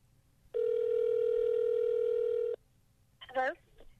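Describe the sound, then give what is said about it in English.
A telephone ringback tone on an outgoing call: one long, steady tone lasting about two seconds, then a short warbling electronic chirp near the end. No one speaks. “Should we try calling again? Let's see if they'll pick up.”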